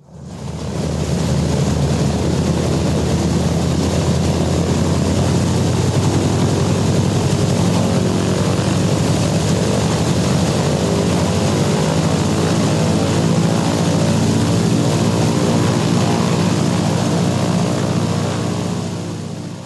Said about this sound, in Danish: Det er nogen, der hedder Douglas Skytrain transportfly, som var ret brugt på det her tidspunkt. Og sådan en skal vi høre, hvordan den lyder.